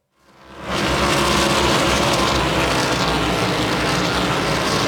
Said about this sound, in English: Inside of 10 laps to go here in the opening stage of the Cookout 400